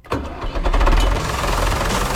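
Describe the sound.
A tractor engine starting: a short crank quickly catches, and the engine settles into a loud, steady, low, knocking rumble that carries on to the end.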